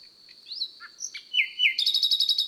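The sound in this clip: A bird sings at night, a sequence of clear whistled chirps and slurred notes that ends in a rapid, repeated trill, with nothing else in the background.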